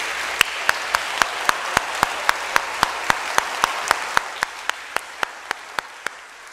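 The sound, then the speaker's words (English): A church audience applauds young people just received into the church. One sharp clap beats out a quick, even pulse over a softer wash of applause, easing slightly toward the end. “I was so excited to see all those young people be received into our church, and I hope you don't mind, but let's give them a hand, just letting them know we welcome them.”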